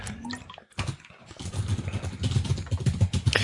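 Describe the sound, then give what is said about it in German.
Rapid typing on a computer keyboard, a dense run of clattering keystrokes that grows busier and louder through the second half. “Tastatur. Bam, bam, bam, bam, bam.”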